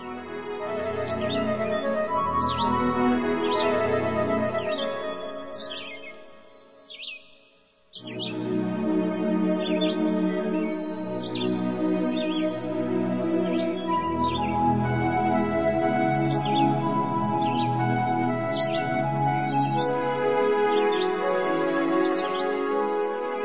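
Many short, high bird chirps repeat steadily over a sustained tonal musical backdrop. A brief lull near the middle interrupts both before the chirping and music resume together.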